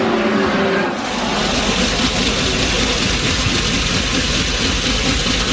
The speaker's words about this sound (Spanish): Este es el sonido de un motor cuando va bien y cuando rompe. El coche de Fernando Alonso.